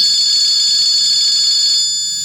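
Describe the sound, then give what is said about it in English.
A telephone rings with a loud, steady electronic bell-like tone held for about two seconds before it cuts off. No talk is heard. “Oh, boy, the phone.”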